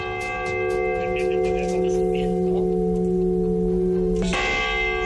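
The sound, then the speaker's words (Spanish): The restored church bells of the Viscarrués parish church ring with sustained, layered metallic tones and shimmering overtones, and a fresh strike late on renews the full peal. “queremos ponerte el de las campanas restauradas de la iglesia parroquial de Viscarrués, que sonarán dentro de una fiesta organizada para el próximo sábado. Nos han dejado un trocito del sonido que tienen para que las puedas escuchar.”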